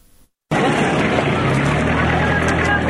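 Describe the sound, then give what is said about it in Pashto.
Engine rumble of trucks and Datsun vehicles crossing the Spin Boldak border from Pakistan into Afghanistan: a loud, continuous drone that starts abruptly after a moment of near quiet. “د کندهار د سپین بولدک چمنلار دلته په کډبار په سلګونه لاري او دانسن موټرونه له پاکستان څخه د افغانستان خاورې ته داخليږي”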